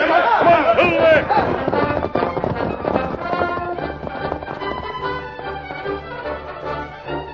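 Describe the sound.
Rapid hoofbeats of many horses galloping across rangeland in a Western radio drama, a loud, continuous rolling clatter that carries through the whole stretch with no pause.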